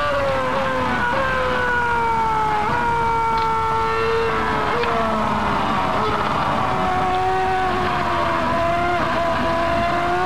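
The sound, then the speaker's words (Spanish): A Ferrari Formula One race car accelerates during a race with a loud, high engine whine. The pitch stays fairly level but steps at several points as the car shifts, continuous throughout. “Acelera la Ferrari, ya está segunda.”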